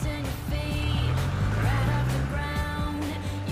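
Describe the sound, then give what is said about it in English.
A car turns onto a street and drives away, its engine a steady low rumble that swells and rises slightly in pitch midway before easing off. “Cameron glances at Alex, then turns onto the street and drives away.”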